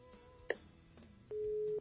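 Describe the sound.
A telephone call tone while redialing, before the call goes to voicemail: a sharp click, then a single steady, low beep lasting about half a second over faint background hiss.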